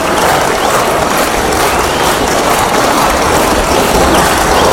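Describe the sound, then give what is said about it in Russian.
Hockey fans standing in a stadium applaud, a loud, unbroken wash of clapping that stays dense and even from start to finish. “Лишь один человек стоя аплодирует. Постепенно зрители поднимаются со своих мест. Болельщики стоя приветствуют Валерия и наших хоккеистов.”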